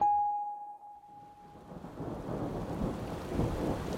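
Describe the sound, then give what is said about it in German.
Rain falls by the East River as a broad, rushing hiss that builds from faint to louder, with a low rumble underneath. A short, pure high tone fades out at the very start. “Es regnet. Ich bin nass bis auf die Knochen.”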